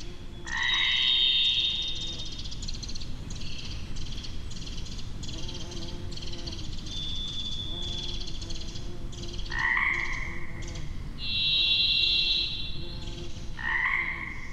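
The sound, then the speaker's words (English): In a springtime recording, Pacific chorus frogs keep up a steady croaking chorus. Over it, a varied thrush sings several long, buzzy whistled notes, each at a different pitch and separated by pauses. “We're hearing a varied thrush there, Pacific chorus frog. They're as busy communicating as we are.”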